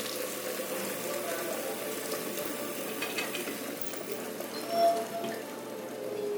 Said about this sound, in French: J'attends que l'eau soit tiède et je vais te laver les cheveux.